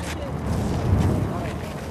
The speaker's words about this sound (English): Fire definitely adds a completely different element in terms of just the sound and when it's whizzing by your ear.